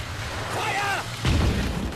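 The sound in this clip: A deep, heavy boom from an exploding shell in a wartime city street strewn with debris. A single low blast strikes about midway and rumbles on to the end over a steady, noisy background.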